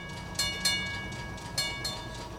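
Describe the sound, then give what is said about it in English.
Ride aboard a Belgian trolley streetcar: a steady rolling rumble with a few sharp bright clacks or squeals from the wheels on the rails, fairly faint and with no voices. “Right now, let's board this beautiful Belgium trolley and take a ride.”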